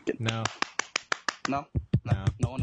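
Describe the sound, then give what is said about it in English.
Hands clapping by a few hosts, a quick, uneven run of many sharp claps mixed with their voices, the smacks tightly spaced and fairly loud. “I think what we need to do actually is all three of us need to clap ourselves.”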